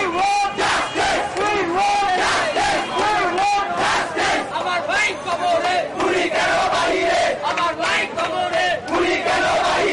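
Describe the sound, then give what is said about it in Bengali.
Student protesters on a city road chant slogans in unison, many voices shouting in a loud, rhythmic call pattern with short pauses between phrases, repeating steadily throughout. “এ সময় স্লোগানে স্লোগানে মুখর ছিল রাজপথ।”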